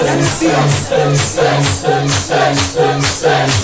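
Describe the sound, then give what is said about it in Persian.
Mourners beating their chests in a Shia ritual for Imam Hussein, a loud, steady rhythm of repeated thumps at an even pace, with a crowd of voices chanting in time over the beats. “محکم سینه بزن، این موبایل رو بیاد پایین، باید سینه بزنی دو دست برای عبی عبدالله، صدا سینه زدن بیا”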